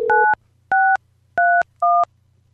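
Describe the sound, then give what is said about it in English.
Telephone keypad dialing as someone places a call: four short, clean dual-tone beeps, evenly spaced over about two seconds, over a faint low hum. “We're calling Vita Monday.”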